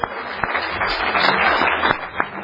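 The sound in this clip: Brief applause from the audience at an Alcoholics Anonymous meeting greets a speaker's nine years of sobriety, a short burst of scattered, uneven claps with a few sharper smacks standing out.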